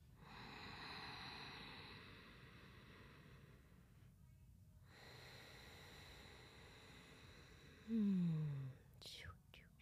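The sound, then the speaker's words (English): A slow, deep breath during a guided heart-centred meditation: soft, airy breathing noise stretches over several seconds, broken by a short pause, and ends with a brief, louder voiced sound. “And let's just take a deep breath together.”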